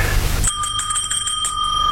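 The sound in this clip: A hand bell is rung to summon a servant. After a short stretch of low noise, a bright metallic ringing breaks in suddenly, with several quick repeated strikes that keep the tone sustained to the end.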